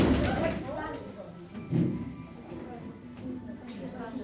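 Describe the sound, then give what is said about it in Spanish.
A wooden chair breaks during a sermon: one sudden crack and thud stands out near the middle, under steady talking from the speaker. “¿Se partió la silla? Dios mío.”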